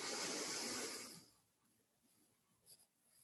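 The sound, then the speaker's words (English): A slow, deep breath drawn in, heard as a broad airy hiss lasting about a second. It then fades to near silence with faint scattered rustles. “And do that two more times as you're calling this quality to mind. Just breathe in, and all the way down.”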